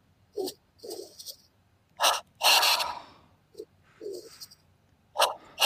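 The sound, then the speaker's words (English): Deep chest breaths during a breathing exercise: many sharp, forceful inhales and exhales through the nose, coming in quick uneven bursts with brief pauses between them and no talk. “So it's two breaths in the chest, like this.”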